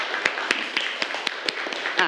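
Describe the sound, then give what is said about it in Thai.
Classroom applause for a student's presentation: a few hands clap in a steady, evenly spaced beat, each sharp clap standing out above a low background murmur. “ปรบมือให้เพื่อนคนแรกหน่อยครับ”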